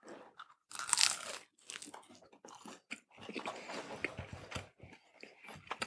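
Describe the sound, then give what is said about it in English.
A loud, crisp crunch as teeth bite into a chicken nugget, followed by many smaller crunching chews in an uneven rhythm, close and clear with no talk. “All right, for the ASMR peoples, I hope you enjoy this, but go try the first bite now.”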